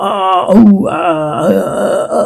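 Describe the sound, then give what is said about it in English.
A warrior's attack yell and fighting grunts: a loud, strained, throaty voice cries out continuously for about two seconds, with a wavering pitch and rough grunting edges. “attack yell, fighting grunts,”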